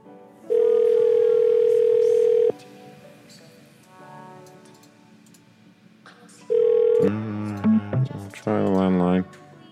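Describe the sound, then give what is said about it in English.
Landline telephone dial tone: a steady, loud, even hum for about two seconds, then silence, then a short burst of the same tone before voices talk. “All right, we'll try the landline.”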